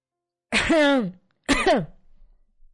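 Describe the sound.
A woman clears her throat in two distinct rough, raspy bursts separated by a brief pause, with silence before and after.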